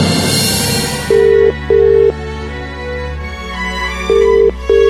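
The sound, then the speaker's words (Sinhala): Telephone call being placed. A low, steady ringback tone sounds in two pairs of short beeps over background music, with a gap between the pairs. “Phone එක අරන් number එකක් dial කරනවා.”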